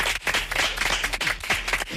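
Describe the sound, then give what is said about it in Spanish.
Live applause in a studio honouring two Civil Guards and a local group: a dense, steady patter of many hands clapping together, holding at an even level for the whole two seconds. “por favor, vamos a dar un aplauso en directo”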